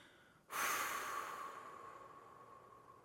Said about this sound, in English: Now blow it out through your lips like you're blowing out a candle.